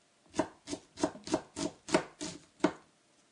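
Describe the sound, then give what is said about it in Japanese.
A knife chops an onion into fine mince: about eight steady, evenly spaced chopping strokes, each a crisp thud against the board, with no talk. “玉ねぎを切るっていう操作。”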